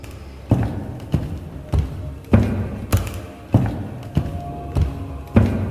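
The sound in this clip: A knife tapped against a wooden stair floor gives nine loud, hollow thuds at a steady, evenly spaced rhythm, with no voices.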